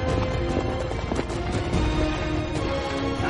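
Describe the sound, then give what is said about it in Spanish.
Hooves of three pack horses running off along a gully, heard as a dense, continuous clatter of galloping steps that holds steady in loudness throughout. “Un hombre con turbante corta las riendas de los caballos de carga. Los tres animales se desvían y se alejan por una rambla paralela.”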